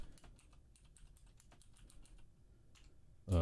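Fingers tap quickly on a computer keyboard, typing out a movie search in many light, uneven keystrokes at a low level, with a brief pause near the end before a few more taps.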